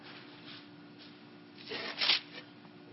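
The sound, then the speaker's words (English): Pages of a Bible rifled through quickly to Matthew 6, a faint soft papery rustle that swells into a brief louder flurry of flicking near the end. “Matthew chapter 6. Again, rifling through it a little quickly here.”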